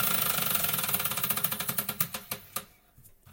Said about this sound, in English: You can spin it, but it's going to have to land on weird news, I guess.